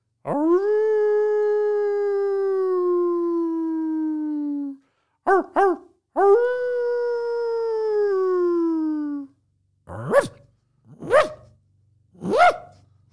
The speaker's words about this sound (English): That's a dog, bro.